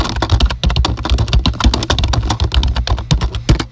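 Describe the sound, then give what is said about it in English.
Rapid typing on a computer keyboard: a dense run of many quick, clacking keystrokes with only short gaps between them. It is loud and steady, with no talk over it. “I'm going to try to see if I can find it right quick. I hope I don't lose you, but let me type it right quick.”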